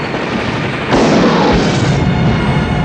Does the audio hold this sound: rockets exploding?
yes

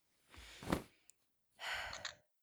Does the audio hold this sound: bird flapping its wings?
no

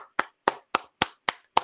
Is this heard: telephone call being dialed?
no

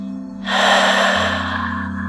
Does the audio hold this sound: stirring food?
no

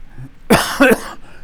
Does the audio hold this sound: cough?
yes

